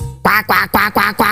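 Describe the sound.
A person imitates a duck with five loud, nasal quacks in an even, rapid rhythm, each one short and rasping.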